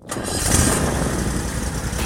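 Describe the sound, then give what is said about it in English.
A Toro Z-Master 4000 zero-turn mower engine starts up with a quick catch, then settles into a steady, loud running roar. “That's the sound of a day starting out right. I hear it every time my new Toro Z-Master 4000 Zero Turn starts up.”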